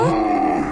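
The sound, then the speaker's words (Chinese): A sika deer doe calling her fawn gives one short, harmonic, slightly nasal call that holds a fairly steady pitch. It is clear and fairly loud, and nothing else is heard. “例如雌鹿呼唤小鹿时发出的，”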